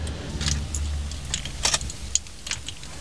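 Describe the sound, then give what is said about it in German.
A car engine rattles over a steady low drone, with irregular metallic clinks and jangling taps on top and a few sharper knocks standing out. No voices are heard. “Klapperdiklipp, klapperdiklapp. Was ist denn mit dem Motor los? Da klappert doch was.”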